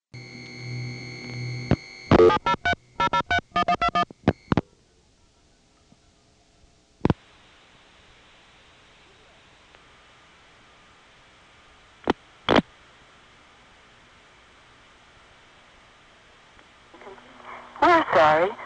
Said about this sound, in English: You'll hear the Crossbar 5 tandeming noise before the recording, which is done in that new Virginia standard voice.